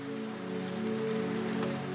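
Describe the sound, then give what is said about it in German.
Raindrops softly hitting a window pane make a gentle, steady patter that stays even and quiet throughout. “wie die Regentropfen leise gegen das Fenster schlagen.”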